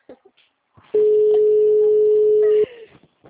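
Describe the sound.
A telephone tone on a call to a number that does not answer: one steady, mid-pitched beep held for under two seconds, with short voice fragments just before and after it.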